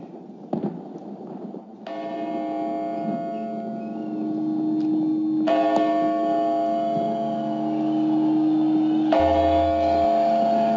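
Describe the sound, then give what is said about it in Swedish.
Church bells ring in a classic Swedish New Year TV broadcast, with deep, sustained tolling and rich layered overtones. Fresh strokes enter a few times and build on the lingering ring above a low hum. “Alltså en sekund efter att hon slutar läsa så börjar klockan ringa”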